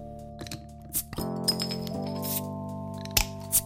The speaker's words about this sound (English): maybe you could crack us open a beer